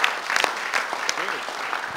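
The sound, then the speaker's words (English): A church audience claps in praise after a prayer, a dense run of fast, overlapping hand claps that holds steady throughout, with voices calling out beneath it. “Shall we give the Lord a clap? Let's give God the glory for what he's about to do.”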